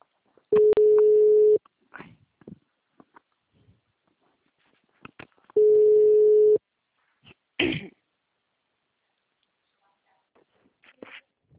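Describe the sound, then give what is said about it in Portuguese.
Ringing tone of an outgoing telephone call: two steady one-second beeps about five seconds apart, with quiet clicks and faint throat-clearing sounds in the gaps between them. “chamando, tá chamando, tá chamando.”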